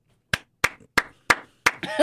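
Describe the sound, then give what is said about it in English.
Hand clapping for a round of applause: five sharp, evenly spaced claps at a slow, steady beat, followed by a denser, messier burst of clapping at the end. “Round of applause for Amber Rose.”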